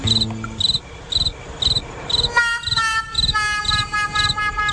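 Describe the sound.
Crickets chirp in regular, evenly spaced high-pitched bursts, many short trills repeating at a steady pace.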